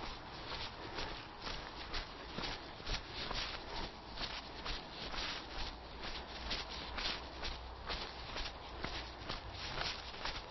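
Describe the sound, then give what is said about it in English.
Footsteps crunch down a steep slope in Epping Forest, a steady rhythm of many soft, even treads with a faint background hum. “Walking down a steep bit. I'm also quite near a road here. That's one of the interesting things about Epping Forest”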